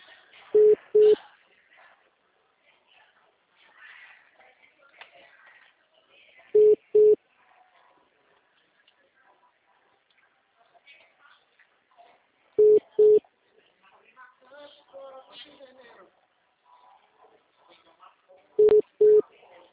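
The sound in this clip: A telephone ringback tone on a call, heard as four evenly spaced double beeps several seconds apart, each pair a short low steady tone, with faint background noise in the gaps.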